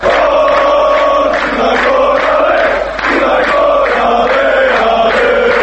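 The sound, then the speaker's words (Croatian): Football fans chanting and cheering at a European Championship qualifying match: a loud, sustained roar of many voices with a steady, rhythmic chant pattern that continues without a break. “Ovo, nažalost, nisu navijači crnogorske reprezentacije koji u Poljskoj ili Ukrajini bodre nacionalnu selekciju, već samo snimak sa jedne od utakmica kvalifikacija za ovogodišnje Evropsko prvenstvo u fudbalu”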